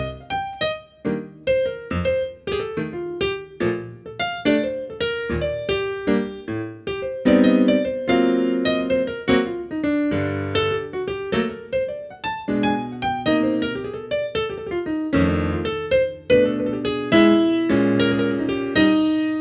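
Solo jazz piano in broken stride: the left hand alternates single bass notes and chords beneath a busy right-hand melody, with many notes in a steady, swinging rhythm and no talking.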